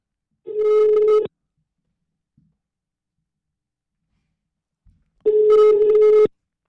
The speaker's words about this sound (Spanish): Esta es la primera persona que le estamos marcando. Y a ver si contesta.